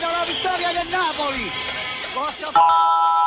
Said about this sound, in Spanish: Tu alarma Verisur ha sido conectada. Esto es lo que suena en tu casa cuando te protege el líder mundial en alarmas.